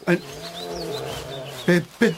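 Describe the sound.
A bear growling in a children's audio drama, a sustained low, rumbling tone lasting over a second, framed by short bursts of voice at the start and end.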